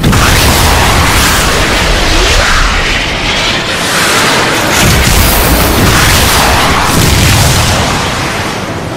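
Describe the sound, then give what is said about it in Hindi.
Cruise missiles are fired in a loud, sustained roaring rumble. Several heavy swells rise and fall across the whole stretch, with no voices over it. “तीन cruise missile fire करें। 1, 2, 3 fire.”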